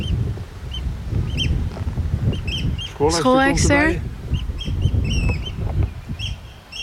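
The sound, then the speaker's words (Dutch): A northern lapwing calls out in the open, giving a few short, wheezy, shifting cries among other faint bird calls over a low rumble. “Hier staat recht voor, staat een kieviet.”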